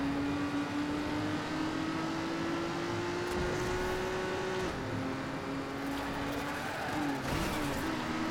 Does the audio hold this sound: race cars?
yes